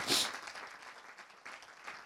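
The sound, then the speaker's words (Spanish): Applause from a church audience: many hands clapping in a dense, steady wash at a fairly quiet level, with a louder swell at the very start. “Aleluya, dele un aplauso al Señor.”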